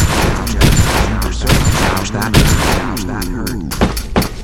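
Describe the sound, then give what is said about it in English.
Loud video game gunshots from a Desert Eagle pistol fire in a rapid, heavy series of booming cracks, each shot landing sharply over a dense, continuous rumble. “I believe it's a Desert Eagle. Not sure he should be using those sounds, but they're in here.”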